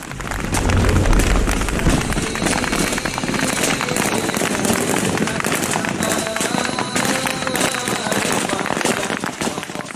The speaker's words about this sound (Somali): oo mar qura rasaas oo da uga qaadaya askarta maamulka Jubaland ee ku sugnaa deegaanka